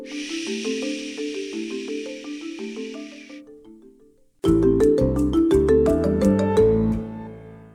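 A soft, steady shushing hiss like white noise runs over gentle plucked tinkling notes, then cuts out, leaving louder chiming music alone.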